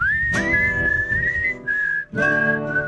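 A person whistles a film theme tune: a clear, steady high melody in long held notes, with a short break near the end before the tune picks up again over a low background.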